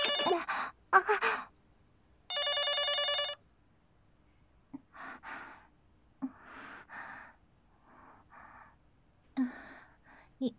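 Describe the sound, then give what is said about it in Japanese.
A telephone rings in a single bright burst lasting about a second, set among soft breathy sighs and gasps with quiet pauses between them. “今の電話は誰からだったんでしょうか。”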